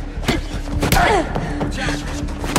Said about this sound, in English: She dodges the blow, jabs his throat, and punches his arm. She then sidesteps another assault.